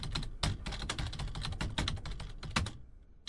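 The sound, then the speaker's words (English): Fingers type rapidly on a keyboard in a continuous clatter of many keystrokes. The sound is fairly quiet, and the keys fall silent briefly near the end. “How can one type and fall asleep? Is that possible? Yes, it's possible. You just did it.”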